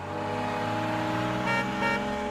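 A car engine runs loud and steady as the vehicle drives off, a continuous motor drone with a slight swell near the end and no voices.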